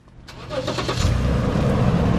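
A car drives down a residential street in a tiny rural town, its engine noise swelling over the first second into a steady, loud low rumble that holds to the end.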